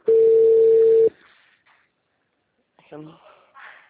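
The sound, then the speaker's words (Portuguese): A telephone tone sounds as a call is dialed: one loud, steady, mid-pitched tone holds for about a second, then cuts off into near silence before a brief voice follows. “Deixa eu só fazer essa ligação aqui.”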